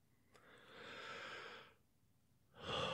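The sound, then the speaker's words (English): Someone takes a big, long, breathy inhale that swells and fades, followed after a short pause by a second, louder breath at the end. “That's a big breath.”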